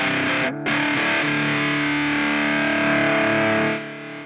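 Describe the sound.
Electric guitar played through two effects pedals stacked together, giving a heavily distorted tone. A few choppy strummed stabs open it, then one thick buzzing chord rings out loud and steady before tapering off near the end.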